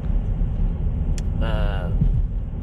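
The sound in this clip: Steady low road rumble inside a car driving home late at night after a gig, a continuous engine and tyre drone that holds at an even level throughout.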